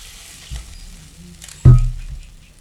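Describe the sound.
Hot caramel poured into saucepans gives one loud hissing sizzle that bursts in suddenly, then fades over about a second, with a faint knock just before it.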